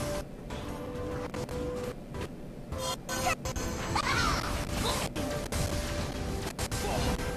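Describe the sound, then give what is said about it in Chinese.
Zhong Wuyan's spin attack in the Honor of Kings video game, a rapid run of crashing and thwacking impacts over busy, continuous battle effects. “这个钟无艳的这个旋转 太嚣张了， 太嚣张了！真的，他这个旋转真的是。一个旋转，然后石化了特别多人。”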